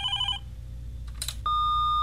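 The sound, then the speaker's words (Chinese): A telephone rings in a short electronic burst, then a click and a steady, high electronic tone that holds to the end. “今天电话也未免太多了吧？”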